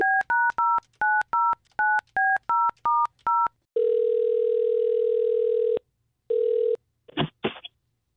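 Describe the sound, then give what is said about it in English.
Telephone dialing a call: a rapid series of about eleven two-tone keypad beeps, then a long steady ringing tone, a shorter second ring and a brief crackle of the line picking up. “Let us try to call Sara next.”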